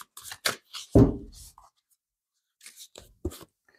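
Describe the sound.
Tarot cards being shuffled and handled: a few short papery flicks and rustles, one heavier slap partway through, then a silent pause before more soft flicks.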